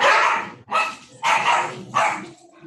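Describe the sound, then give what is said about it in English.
Dogs bark at someone walking past the house, a loud run of several harsh barks in quick succession, the last ones fading. “anytime anybody walks by our house, our dogs bark.”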